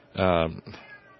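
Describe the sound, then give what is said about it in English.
A cat meows: one loud, drawn-out harmonic cry, then a shorter, softer follow-up call. “cat noise. We get cat noise tonight.”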